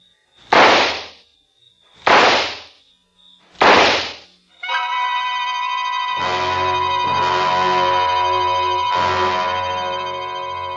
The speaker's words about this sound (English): Then I opened my purse, took out the gun, aimed very carefully at a spot just in the center of his left shoulder blade, and pulled the trigger four times.